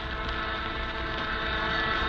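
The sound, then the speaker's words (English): A lathe runs in a workshop, giving off a steady, unbroken mechanical drone with a low rumbling base that holds constant throughout. “Bill, turn that lathe on. Pretend like you don't see anything.”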